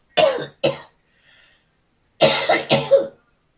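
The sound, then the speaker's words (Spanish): A person coughs with no other sound: two sharp coughs, a pause, then a run of four loud coughs in quick succession. “en el nombre de Jesús reprende esta tos”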